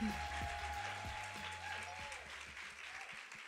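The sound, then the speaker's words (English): Applause at a women's church gathering as a guest speaker is welcomed to the stage in the evening. The clapping is soft and fairly faint, with sustained musical tones running beneath it. “Let's put your hands together and help me welcome Sarah Nuse to this stage tonight.”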